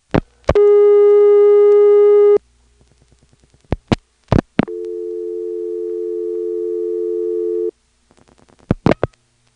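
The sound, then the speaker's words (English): Telephone sounds from dialing out on a real NX1 exchange line: sharp clicks, a steady buzzing dial tone, faint rapid pulse ticks, a second lower steady tone, then more clicks and ticks. “we can dial 9 and hear what it sounds like to really dial from the Siler City NX1”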